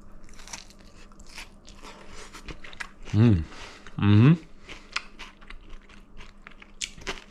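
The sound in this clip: Crisp crunching bites into a bacon-topped dish seasoned with nutmeg and served on a wooden board. Many small crackly chewing clicks run throughout, with two short, louder voiced murmurs in the middle.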